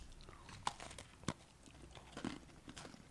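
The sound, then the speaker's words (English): Faint crunchy biting and chewing into a cookie with a fruit-flavored cream filling: a few sharp crunches stand out over soft, continuous mastication. “I'm going to take one with just the filling because I ate the whole cookie.”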